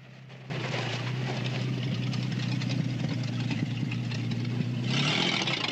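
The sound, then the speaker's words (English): A car carrying a gang zooms down a dirt track, its engine starting abruptly and then holding a steady, low droning hum with little change in pitch. “Clyde and his gang zoom down a dirt track to a mailbox.”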